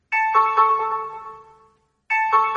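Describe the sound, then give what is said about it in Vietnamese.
Two-tone ding-dong of a doorbell chime at a hotel room door. The chime sounds twice: a bright, ringing pair of notes that slowly fades, then a short silence, then the pair begins again. “Chuông cửa reo”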